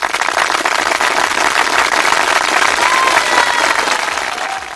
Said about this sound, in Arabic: ونطلب صفق عليه صفق عليها.